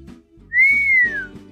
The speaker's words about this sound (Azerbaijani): Başmaqları yuxarı qaldırıb sevinclə fışqırıq çalır.